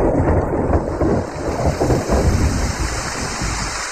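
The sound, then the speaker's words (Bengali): Thunder of an approaching storm rumbles low and continuous beneath steady heavy rain, the whole wash loud and unbroken, with no voices. “ওই দেখো দূরে বিদ্যুৎ চমকাচ্ছে, আবার ঝড় বৃষ্টি আসবে”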